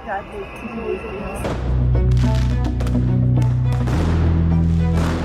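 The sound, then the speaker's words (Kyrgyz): Fireworks fired by protesters toward police during a demonstration in Georgia, with several sharp pops and crackles over loud, continuous low rumbling noise. “Митингчилер полицияга жооп кайтарып, алар тарапка фейерверк атып жатышты.”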